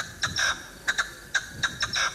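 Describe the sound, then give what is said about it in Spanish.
A partridge calls in a series of short, raspy, high chirps, several of them grouped in quick pairs, fairly faint over a low background hiss. “Una perdiz. Es una perdiz.”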